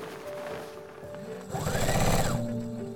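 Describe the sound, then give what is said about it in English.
A sewing machine runs as fabric is fed through at a dining table in a small house in rural Pembrokeshire, Wales, with rapid mechanical pulsing that starts partway in and grows louder over sustained tones. “Inside, sat at the dining table, is a woman. She's hunched forwards, surrounded by garments, a sewing machine thundering back and forth as she delicately feeds the fabric through.”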